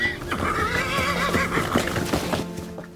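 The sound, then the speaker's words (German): A worn-out old horse gives a long, wavering whinny, followed by a few hoof knocks. “Mit diesem Gaul ist nicht mehr viel anzufangen.”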